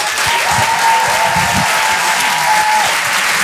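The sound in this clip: Comedy club audience applause welcoming a comedian onto the stage, a dense, even clapping that holds at steady loudness throughout, with a long, level whistle-like tone riding over it.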